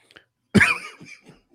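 A single deep, heavy cough of the kind that would stand out in an office, loud and abrupt, alone, then trailing into a few faint sounds.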